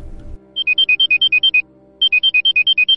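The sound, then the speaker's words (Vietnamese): A mobile phone ringtone rings in two loud bursts of rapid, high electronic beeps that alternate between two pitches, with a short gap between the bursts. “Khi không còn sức để khóc nữa thì chuông điện thoại của cô bỗng reo lên.”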